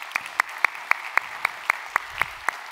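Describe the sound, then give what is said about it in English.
A church audience clapping at a Sunday service: about ten sharp, evenly spaced claps in a steady rhythm, fairly faint over a quiet background. “So if you would put your hands together, welcome to our time of study here today.”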